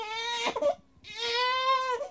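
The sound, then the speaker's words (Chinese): A newborn baby cries in two drawn-out, high wails separated by a short break, each cry strong and sustained with a slightly breaking tone. “你听，孩子的哭声。”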